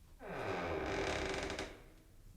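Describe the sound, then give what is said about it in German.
A door is opened with a long, fairly faint creak of strained wood and hinge that swells and then eases off. “Vorsicht! Ich öffne jetzt die Tür.”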